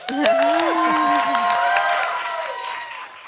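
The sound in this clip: Live show audience cheering and applauding, whoops and clapping bursting out loudly at once, then slowly dying away over about three seconds.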